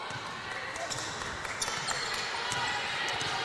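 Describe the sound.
Basketball dribbling on the court during a girls' high school game between Coldwater and GR Northview: muffled bounces scattered amid ongoing gym noise and talk.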